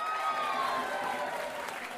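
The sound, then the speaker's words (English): A crowd at a raffle evening claps and cheers for an organiser, a dense, steady burst of applause with raised voices and whoops that carries on throughout. “Go on, even bigger cheer for Sue!”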